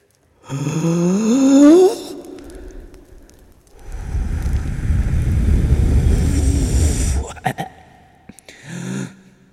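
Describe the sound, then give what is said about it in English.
One big deep breath, drawn in and blown out: a rising, throaty intake, a short pause, then a long, loud, rushing exhale lasting several seconds, ending with a brief breathy puff. “The fire's dying down now. Let's give it one more big Olympic breath.”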